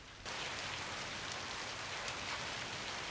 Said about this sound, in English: he slowly turns around and starts to walk out of the garage into the torrential downpour.